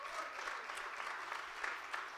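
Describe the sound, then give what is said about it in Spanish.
A church audience applauds with dense, steady clapping that holds at an even level for about two seconds. “Denle ese aplauso a Jesús hoy.”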